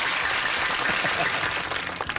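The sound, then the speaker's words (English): Recorded audience applause clip played during a phrase game: a continuous, dense wash of clapping at a steady, fairly loud level throughout. “Our audience is going crazy here today. I'm so tired of the clip. It's such a honky sound, isn't it, guys? It's hokey.”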